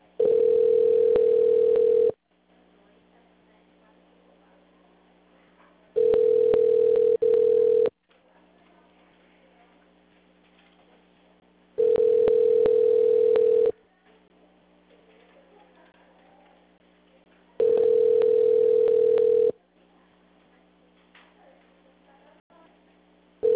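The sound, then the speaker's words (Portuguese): A telephone line tone plays while a call is being transferred: four long, steady mid-pitched beeps, each about two seconds, evenly spaced by quiet gaps. “Transferindo a sua ligação. Por favor, aguarde.”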